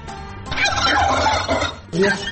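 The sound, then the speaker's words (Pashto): Turkeys gobbling on a turkey breeding farm in Takhar, a loud, dense chorus of overlapping, rattling gobbles that runs almost without pause, with one fresh burst near the end. “د تخار څخه به تاسو ته یو رپورټ خپور کړو چې هلته د فیلمرغانو د روزنې او پالنې یو فارم”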